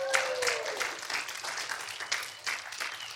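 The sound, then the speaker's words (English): Audience applause at a religious gathering, a dense, fairly quiet patter of many hands clapping that continues steadily for about three seconds. “Mr. Nyford, Mr. Doug Nyford, y'all make some noise.”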